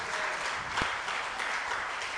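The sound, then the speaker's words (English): A church audience clapping hands in praise during a sermon on the Lord's table, an even, fairly soft stream of many hands clapping together without pause and no talk over it. “Let's clap for Christ for institutionalizing this as an ordinance.”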